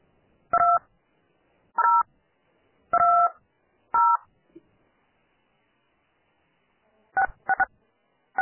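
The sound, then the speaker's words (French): Telephone keypad tones dial a conference access code: several short, clean beeps at uneven intervals, with a long pause midway and a quick cluster of presses near the end. “Veuillez composer le code d'accès à la conférence.”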